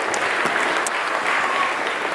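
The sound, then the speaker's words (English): Audience applause, a dense even patter of many hands clapping at moderate level, steady throughout the short burst without a clear start or finish. “round of applause”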